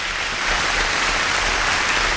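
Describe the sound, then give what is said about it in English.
Steady applause from an audience, an even wash of many hands clapping that holds at a constant, fairly loud level throughout, with no voices over it. “She said you can have a little bit of applause. So that's it. That's all the applause you can have.”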